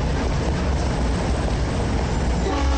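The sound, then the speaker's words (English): An Amtrak train moves into a station with a loud, steady, broad rumble that holds evenly from start to finish, with no voices. “Amtrak train moves into a station.”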